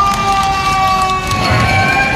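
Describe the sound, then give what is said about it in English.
A fire truck's siren sounds steadily outside a New York City hospital as firefighters cheer doctors, nurses and other staff, loud, sustained tones over a busy wash of crowd noise and scattered shouts. “What you're hearing is outside a city hospital, doctors, nurses, and others being cheered by firefighters and their fire truck.”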